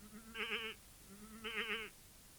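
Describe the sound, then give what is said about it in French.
Two quavering bleats from an old goat, each lasting about half a second with a wavering, nasal pitch. They are separated by a short pause and sound out alone at moderate loudness. “Elle rencontre une vieille chèvre,”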